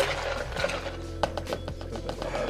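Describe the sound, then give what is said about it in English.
A spoon scoops fruit into a mixed drink with lime, giving a few quiet clinks and scrapes over a steady low hum. “So I'm going to just grab some fruit with the spoon and put it in there.”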